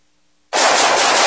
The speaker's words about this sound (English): Whew, nice shooting.